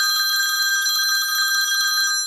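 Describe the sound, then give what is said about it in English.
A telephone bell rings continuously with a bright, metallic trilling tone, steady and heard alone. “Just then, the phone rang.”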